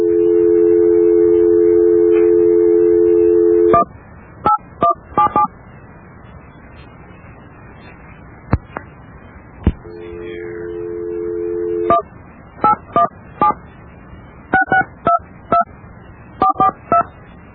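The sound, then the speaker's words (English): Telephone number being dialed with DTMF keypad tones: a long steady tone, then many short, sharp dialing beeps in quick clusters, a second steady tone, and more bursts of beeps. “Well, we've dialed the number.”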